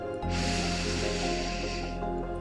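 A long, deep inhale is taken during a guided breathing and relaxation exercise. It is a steady, breathy rush lasting about two seconds over a soft, low, sustained background hum.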